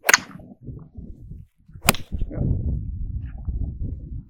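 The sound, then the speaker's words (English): A golf club strikes a ball on a swing aimed at a 125 target: two sharp, bright cracks about two seconds apart stand out over a low, rumbling background. “So let's do one more. Practice swing. Overdo it. There you go. Aim at the 125. Do the same motion.”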